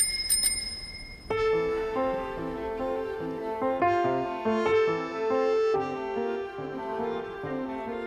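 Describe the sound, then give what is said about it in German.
An old bicycle bell rung twice in quick succession, two bright metallic rings at the very start, after which sustained melodic tones carry on alone. “Es war eine alte Fahrradklingel, die sie zweimal betätigte.”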